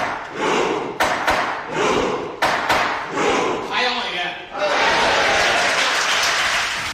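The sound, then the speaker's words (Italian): In the Norwegian Parliament, a man bangs a judge's gavel on a desk: several sharp, hard raps cut through loud, continuous crowd clamor and voices, and a long, dense swell of noise closes it out. “Siamo all'interno del Parlamento norvegese. Un uomo con il completo scuro e la cravatta rossa batte col martelletto del giudice sul banco.”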